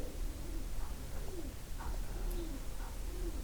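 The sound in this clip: Doves cooing: a few soft, low, rounded coos repeat at an even, unhurried rhythm, quiet against a steady hiss of background noise.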